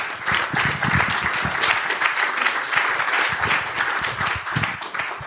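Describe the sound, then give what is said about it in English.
An audience applauds speakers coming on stage at a live event at the Sugar Club. The clapping is loud, dense and continuous for the whole stretch. “if you put your hands together to welcome Emma D'Souza from Loss of Implementation and Sam McElwain from Shrapnel Podcast.”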